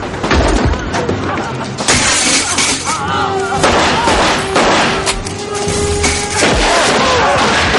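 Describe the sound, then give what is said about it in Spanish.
Gunfire and breaking glass from a 1997 noir film shootout, with shots fired at wounded men through a smashed window: a sharp crash of glass and cracks of gunfire with heavy thuds over a loud, dense background that continues throughout. “Sly retira las protecciones de una ventana, ...la rompe y dispara a los heridos.”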